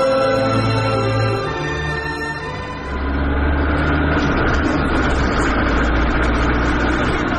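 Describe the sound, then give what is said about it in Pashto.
A car engine runs steadily, giving a loud, continuous low rumble with broad noise that thickens after the first few seconds. No voices are heard. “دا موټر ولې دونه تیز چلوي”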